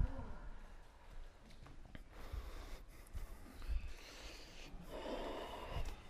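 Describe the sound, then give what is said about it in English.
Breathing during an exercise workout, with a few breathy, snorting bursts of air in and out, the last exhale fuller and longer, all fairly faint. “All right, breathe in. Empty it out, all of it, all of it.”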